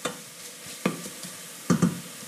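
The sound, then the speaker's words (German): Mushrooms frying in a pan, just starting to release a little water, hiss in a steady soft sizzle while a utensil stirs them, giving a few louder scraping bursts. “Und ich schaue mal kurz zum Pilzchen und rühre. Jetzt ist der Zeitpunkt, wo gerade ein bisschen Wasser austritt.”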